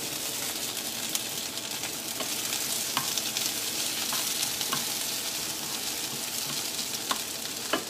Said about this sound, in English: Well, onions on stove.